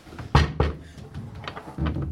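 Knocking on a door during a police entry: a few sharp, uneven thuds with quieter knocks in between, and no voices.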